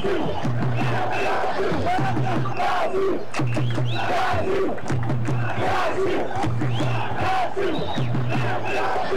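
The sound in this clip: Brazilian football supporters roar and chant in a stadium at an Olympic men's football match against Honduras, London 2012. A dense, loud wall of voices carries a repeated rhythmic chant throughout, with no single voice standing out.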